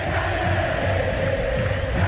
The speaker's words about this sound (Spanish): Canta el público.